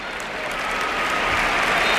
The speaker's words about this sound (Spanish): entra Pedri, escuchamos la ovación